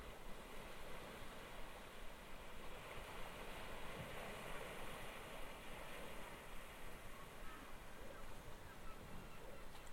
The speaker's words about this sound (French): La mer est calme, presque d'huile.